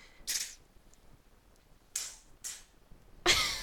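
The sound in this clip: A child's voice imitates gunshots with four short, hissy bursts separated by pauses. The last burst is louder and longer than the others.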